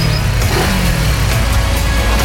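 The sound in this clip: Car engine revving hard, a loud, continuous roar with a deep low rumble underneath and a few brief surges in intensity.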